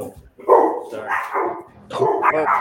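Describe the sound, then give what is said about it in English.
An agitated dog barking, a few loud, rough barks coming in quick succession, with the bursts running close together. “Well, even the dogs agree. Your dog got pissed off all of a sudden.”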